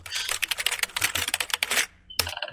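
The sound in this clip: Rapid typing on a computer keyboard as a search is entered, a quick run of many light clicking keystrokes, a brief pause, then a few final taps.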